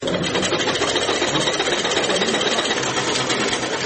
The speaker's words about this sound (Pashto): په دې خیاطي کارخونه کې چې یو وخت ګڼ شمېر ماشینونه چلېدل اوس یوازې څو محدود ماشینونه فعال دي.